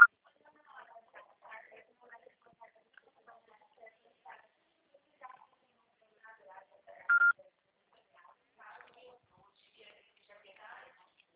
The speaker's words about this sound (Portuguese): Tenta ligar pros clientes aqui.